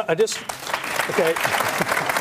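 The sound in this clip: Studio audience applause played as a clap effect, a short burst of dense clapping lasting about a second after brief talk.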